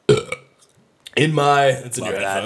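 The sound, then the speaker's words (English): A loud, drawn-out burp lasting over a second goes straight into a microphone, deep and rumbling with a voiced tone, after a few brief vocal sounds at the start. “I'm glad that I haven't really burped that much into the mic until this episode.”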